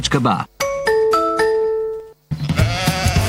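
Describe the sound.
A brief sheep bleat in a radio advertisement opens, followed by several sustained tonal notes and then people talking.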